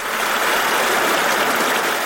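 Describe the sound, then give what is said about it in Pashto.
A permanent mountain stream flows down from the Narizi mountains in Tani district, Khost province. It makes a steady, even rushing that stays at one level the whole time, with no voices. “دا د خوست ولایت د تڼیو ولسوالۍ اړوند د نریزي له غرونو بهیدونکې دایمي اوبه دي”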